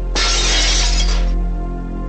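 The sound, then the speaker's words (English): A glass pane on a locked cabinet shatters when struck with a handgun's handle, a single loud crash that rings for about a second before cutting off, leaving a low hum. “Richard's handguns and breaks the glass on the cabinet with the gun handle.”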